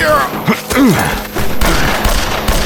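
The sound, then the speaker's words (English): Gunfire erupts from trees in an ambush: many sharp, loud shots crack in quick succession, mixed with shouting voices. “That was when the trees behind Frank and the men with him erupted with flame and lead.”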